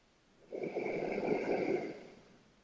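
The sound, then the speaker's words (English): A single deep breath drawn in during a guided meditation: a soft, noisy rush of airflow that swells, holds for over a second, then fades back to quiet, heard alone. “Breathing in again. And one more.”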